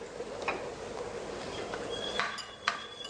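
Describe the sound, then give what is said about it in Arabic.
A chef's knife taps a board while finely chopping tomatoes, giving a few sparse, light, clicky strikes over a faint background hiss. “نجيب طماطمية دكتور بعد اذنك. ايوه ايوه، هنفرمها ناعم جزء منها كده،”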